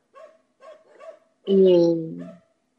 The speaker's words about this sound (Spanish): esos perros están enojados